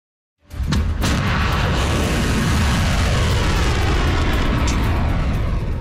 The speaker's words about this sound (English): That is the sound of a volley of Iranian ballistic missiles.